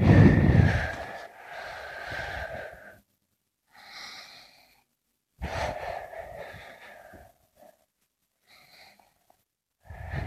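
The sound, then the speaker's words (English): Deep, slow breaths taken to calm the body, several airy inhales and exhales with a slight wheezy rasp, the first loudest, separated by short silent pauses. “What do we have to do? We have to press here. And then we have to take some deep breath.”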